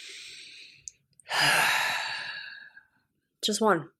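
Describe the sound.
A deep breath in and out: one long, airy, fairly faint whoosh lasting over a second, ending in a brief voiced sound.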